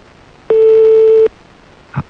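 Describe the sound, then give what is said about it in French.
Telephone ringback tone of a call left ringing toward an answering machine: one steady, mid-pitched tone held for under a second, then quiet with a brief faint blip. “Bon, on va laisser sonner alors jusqu'à ce que ça tombe sur le répondeur.”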